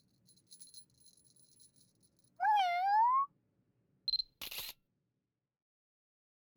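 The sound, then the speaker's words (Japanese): A camera shutter fires once to take a photo: a single sharp, bright snap just after a brief high beep, following an earlier smooth rising tone, with no talk. “私と撮影しませんか？撮影してくださるんですか？ありがとうございます。”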